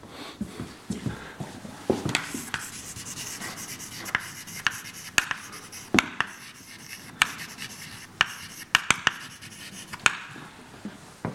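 Pen strokes scratch across a writing surface during a lecture: steady, soft rubbing broken by many sharp taps and ticks, with no talking.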